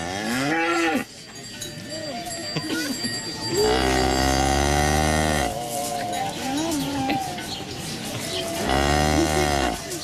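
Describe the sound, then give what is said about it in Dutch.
Cow mooing in a few long, low, drawn-out moos that swell loudly and then cut off, with quieter stretches of background noise between them. “Nou, overduidelijk een koe die we hier horen.”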